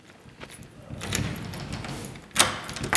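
A door opens into a former classroom on the second floor of an old primary school: a couple of soft thuds and rustling, scraping noises over quiet background.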